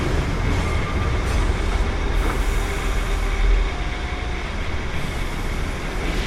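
Subway train riding through a sunlit metro, a loud, steady rumble of wheels and carriage noise that continues without break for the whole stretch, with no talk.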